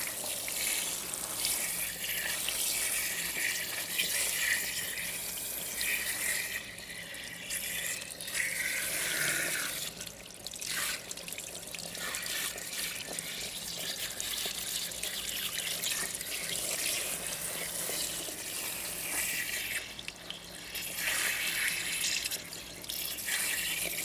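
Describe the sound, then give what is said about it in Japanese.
Warm tap water runs into a washbasin in a steady, continuous rush of splashing hiss. The level holds throughout with small fluctuations, and no voices are heard. “あったかいお湯、気持ちいい？”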